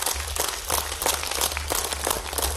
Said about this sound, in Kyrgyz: Кол чабуулар менен тосуп алыңыздар Максат Жангазиев.